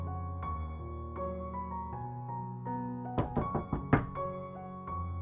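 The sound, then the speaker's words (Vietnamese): Knocking on a door: a quick burst of several sharp knocks over soft, steady background music. “Ngoài cửa có tiếng gõ. Nghe thế, Diệp Kình đi ra mở cửa.”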